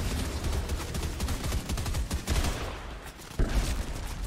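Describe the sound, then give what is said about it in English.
Rapid gunfire from the Fortnite video game: dense bursts of shots run almost continuously, with a brief dip and then a loud fresh burst near the end, and no talk over it. “Oh, I'm getting shot. I'm down. Getting shot.”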